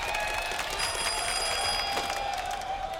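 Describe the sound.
A telephone rings for an incoming call during a game. It is a continuous, high electronic trill held steadily throughout, over a constant background hiss.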